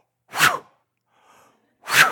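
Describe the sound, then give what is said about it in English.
A voice imitates big huffing and puffing breaths: two strong, noisy blasts of air with a faint, softer breath between them. “And with a big breath, he huffs and he puffs, kind of like this.”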